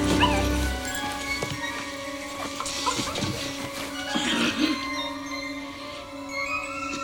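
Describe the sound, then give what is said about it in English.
Puppies whimper and yip: high, wavering whines and short sharp cries come and go throughout, some overlapping, at a moderate level with no talk. “Puppy scratch at the door. He scoops two of the cornered pups into the bag.”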